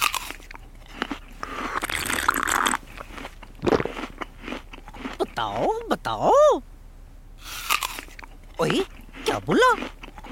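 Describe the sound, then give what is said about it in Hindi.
Breakfast is eaten with loud, crisp crunching and chewing. Bursts of biting crackle sound at the start, then voices talk and exclaim between further chewing sounds. “नाश्ता करने की आवाज।”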